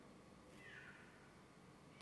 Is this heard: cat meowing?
yes